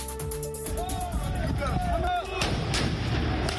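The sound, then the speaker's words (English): French police fire tear gas at yellow-vested protesters in Paris streets: a few sharp, loud bangs burst through a dense roar of crowd noise, with wavering whistle-like tones drifting above. “French police firing tear gas at yellow-vested protesters.”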